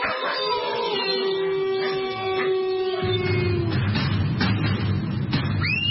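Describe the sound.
Wolves howling: long, drawn-out, overlapping tonal howls that sag slightly in pitch. A low rumbling layer enters midway, and a rising howl sounds near the end.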